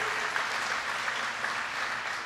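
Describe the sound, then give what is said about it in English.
Audience applause at an event at a battery manufacturing company, a steady, dense wash of clapping with no voices, holding even throughout. “give Eric Apfelbach a big round of applause”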